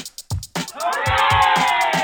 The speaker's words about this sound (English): Time for shouts. Hip, hip, hooray!